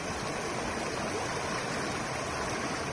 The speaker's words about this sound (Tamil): அப்படியே நம்ம கண்ணு கெட்டின தொலைவுல என்ன இருக்குன்னு பாருங்களேன். ஒரு ஆறு ஓடுவது தெரியுதா?